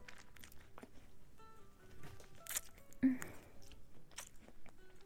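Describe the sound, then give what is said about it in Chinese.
Someone biting into and chewing a sweet food: faint, soft chewing sounds with a sharper crunchy bite partway through. “味道相当的好呢。我还要吃第二口。我吃了两口再给你吃，因为这好好吃哦。”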